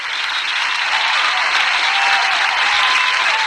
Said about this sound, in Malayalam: Give them a big round of applause.